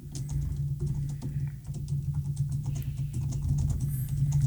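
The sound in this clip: Typing on a computer keyboard as a message is written: many quick, soft, uneven clicks patter steadily over a low hum, with no talking.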